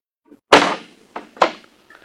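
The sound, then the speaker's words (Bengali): A house door being opened, heard as a sharp, heavy thunk followed by a couple more clunks of the door and latch, with a faint rattle at the end. “দাঁড়া আমি দরজাটা খুলে আসছি।”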